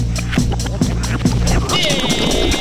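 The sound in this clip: A Rolodex spins with a few ticking card clicks over a low hum, then settles as a brighter, shimmering tonal flourish rises.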